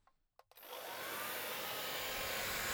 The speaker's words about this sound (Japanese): はい、髪の毛を乾かしてあげるね。